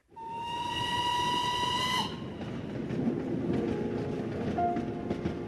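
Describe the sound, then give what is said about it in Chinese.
A steam whistle blows for about two seconds over a rumbling train heading to Yan'an. The whistle then cuts off and the steady rolling of the moving carriages carries on alone. “阿妈，此刻我在开往延安的列车上给您写信”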